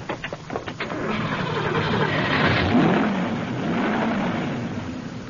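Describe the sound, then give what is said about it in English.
A car engine turning over after its coil wire is pushed back in. A few quick cranking bursts catch into a steady running hum, which swells briefly midway before settling. “Here, see this wire? Pulled right out of the coil, probably jarred loose. I'll stick it back in. All right, see if she'll turn over now.”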